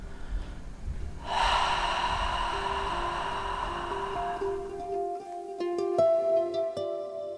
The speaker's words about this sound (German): Ihr stellt die Stimmritze etwas schmal, als ob ihr einen Spiegel anhauchen wolltet. Wenn euch das neu ist, könnt ihr auch erstmal durch den Mund ausatmen.